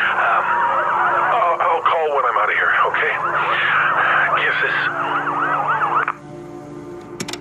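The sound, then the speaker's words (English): Rescue crew sirens wail after an earthquake, several rising and falling tones overlapping loudly for about six seconds before cutting off sharply, leaving a low, quieter hum. “I can hear rescue crews, so I'm sure they'll get to me soon.”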